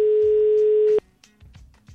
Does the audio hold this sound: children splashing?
no